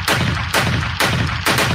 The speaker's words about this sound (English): All right, guys, let's fire some shots.